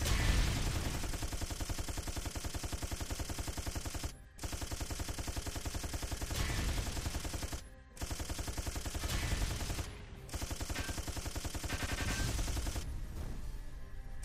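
Rapid automatic gunfire in a video game rattles on loudly in four long, continuous bursts, separated by short pauses. No voices are heard.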